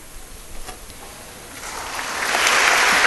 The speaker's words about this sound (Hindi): और ये तालियां इस बात का परिचायक कि सैनिक ने राष्ट्र की सेवा की है।